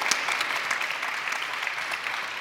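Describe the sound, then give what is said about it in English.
An audience claps to vote for Kratos in a best-facial-hair poll of 2018 video game characters, giving a dense, even clatter of many hands at constant loudness with no pauses. “If you think Kratos had the best facial hair, give us a good clap.”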